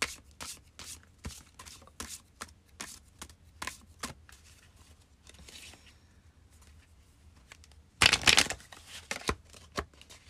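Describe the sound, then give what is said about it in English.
A goddess oracle card deck is shuffled in many light, crisp card flicks at an uneven pace. Near the end comes a short, dense burst of riffling, followed by a few more flicks. “Pulling an oracle card.”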